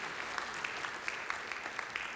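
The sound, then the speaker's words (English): A church audience clapping their hands in praise, a faint, steady, dense patter of many hands with scattered sharper claps standing out. “Would you give God a hand clap of praise?”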